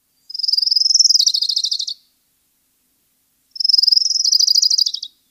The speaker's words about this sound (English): So what was that mystery sound? It's the orange-crowned warbler.